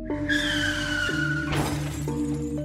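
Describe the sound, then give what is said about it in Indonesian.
An ambulance and a trailer truck collide with glass shattering. A sustained high tone runs first, then a loud crash bursts out midway, and a lower steady tone follows. “Busana, ambulan lan trailer tabrakan sak kayange.”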